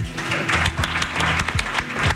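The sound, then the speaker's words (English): Crowd applause at a football player's farewell after his last game, with many hands clapping and sharp individual claps standing out in an uneven, busy rhythm. “Now you can clap into me.”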